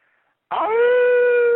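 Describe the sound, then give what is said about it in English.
A caller imitates a wolf howl with his voice: one sustained, steady, slightly rising tone that starts after a brief quiet and holds until the end. “Oh, beautiful howl. You're now officially part of the pack.”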